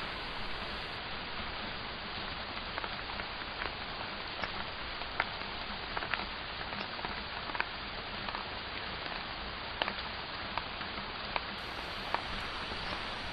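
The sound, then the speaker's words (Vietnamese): Light rain beginning to patter outdoors: a faint, steady hiss with scattered sharper drops tapping through it. “Ngoài trời bắt đầu tí tách đổ mưa.”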